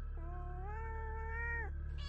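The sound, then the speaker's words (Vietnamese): A tortoiseshell cat meowing while waiting to be fed: one quiet, drawn-out meow that rises, holds its pitch, then breaks off abruptly, over a steady low hum. “Năm vừa nói xong thì con mèo tam thể từ đâu chạy tới. Nó ngồi chồm hổm chờ Năm dầm cơm cho ăn.”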